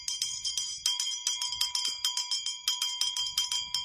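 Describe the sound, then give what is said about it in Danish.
A hand bell rung to get things started, its bright metallic strikes coming many times in a quick, steady, even rhythm, each one ringing on briefly before the next. “Åh, og jeg har helt glemt at ringe med klokken. Ellers kommer vi ikke i gang.”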